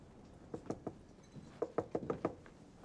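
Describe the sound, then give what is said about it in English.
Knuckles rapping on a door, faint and sharp: a group of three knocks followed after a pause by a quicker run of five. “She knocks on a door.”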